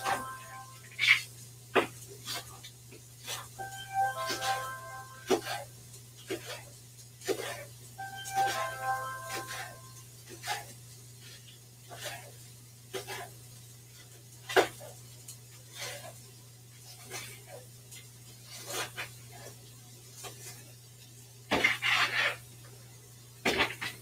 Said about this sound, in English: I am just going to slice up some green onions.